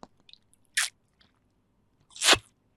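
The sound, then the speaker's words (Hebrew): Two short, noisy slurping bursts as someone sips a drink, the second longer and louder than the first, with near silence around them. “רגע, שנייה בנות, אני לקחת שלוק.”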